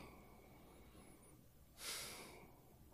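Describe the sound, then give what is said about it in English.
A single sharp, breathy exhale bursts out as a short rush of air and then fades away. Faint, steady background noise sits around it, with no talk. “I love the exhales.”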